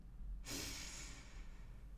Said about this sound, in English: I'm going to invite you to take a really big, deep, deep breath in.